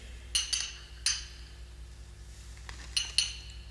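Glass bottles clink as someone searches a cabinet of poisons for one bottle. A few short, bright clinks come in small clusters, fairly faint over a low steady hum, with no talk.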